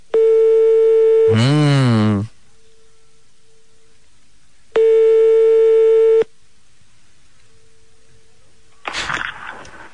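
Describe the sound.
Telephone ringback tone while calling a small hotel: two long, steady mid-pitched tones separated by a pause, with a warbling sound over the end of the first. A short noisy burst follows near the end.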